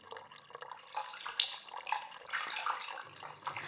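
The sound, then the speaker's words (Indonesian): Water splashes and trickles as someone washes their face, a continuous, fairly quiet wash of small splashes and running water with no voices. “Aku membasuh wajahku dengan air.”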